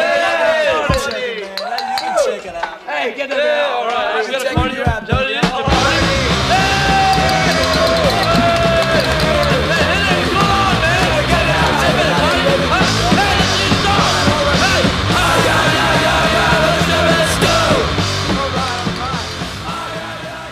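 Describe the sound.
A party crowd yells and whoops through a punk rock recording. The first few seconds are sparser, with scattered shouts and clinks, before the band crashes in loud and dense, with rowdy voices carrying on over the music.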